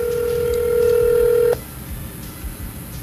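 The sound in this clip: Telephone tone as a caller dials in, a steady, bright tone held for about one and a half seconds before cutting off abruptly, leaving a low hum of line noise.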